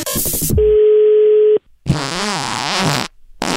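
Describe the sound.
A telephone is dialed for a prank call: a quick run of keypad tones, then a steady tone held for about a second. A short gap follows before a voice speaks.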